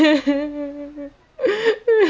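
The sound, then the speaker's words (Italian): A voice whimpers in imitation of a crying tree: a long, sustained, wavering whine, then a short silence and two shorter sobbing cries. “Cos'è questo rumore? L'albero di Albert stava piangendo.”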